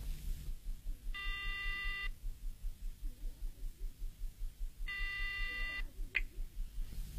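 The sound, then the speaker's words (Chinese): Two long electronic telephone tones, each about a second, sound as a call is placed from a hotel, with a short click after the second tone over a low steady hum. “夜莺马上给许文挂电话”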